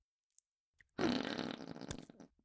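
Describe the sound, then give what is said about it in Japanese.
A fart: one raspy, buzzing burst of about a second, fairly quiet, with a few faint clicks before it and a sharp tick at the end. “おっと、屁が出た。”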